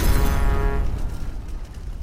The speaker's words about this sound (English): the boiler of the hearse reaches maximum pressure and explodes.